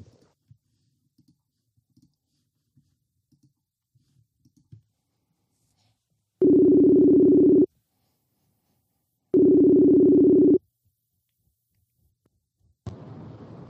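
During a phone call, two long, low, steady ringback tones sound, each lasting a little over a second with a gap of silence between them. A few faint clicks come before them.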